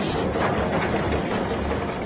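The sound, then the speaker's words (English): A coal cutting machine works in the deepest coal mine in North America, giving a dense, continuous mechanical roar that stays loud and even throughout. “Lawrence operates a coal cutting machine.”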